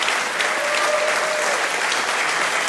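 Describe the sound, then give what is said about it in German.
Audience applause welcoming a comedian onto the stage: dense, steady clapping from a large crowd that holds an even loudness throughout, with no voices standing out. “Bitte begrüßt mit einem fulminanten Applaus die wunderbare Anka Zink.”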